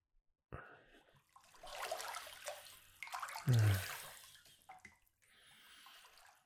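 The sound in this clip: Water is poured and runs while someone's hair is rinsed, making soft, uneven splashing and trickling that swells and fades over several seconds at a low, quiet level.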